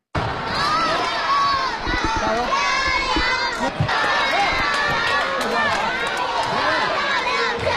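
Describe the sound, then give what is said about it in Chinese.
Children shout at a youth table tennis competition in Haidian Gymnasium, where over 300 young players have gathered. A loud, continuous din of high young voices mixes with cheering throughout. “耳畔充满了稚嫩的呐喊声，满场都是挥汗如雨的小球员的身影。”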